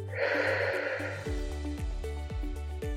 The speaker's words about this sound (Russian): И сейчас сделайте глубокий вдох через нос – Мягкий плавный выдох через рот.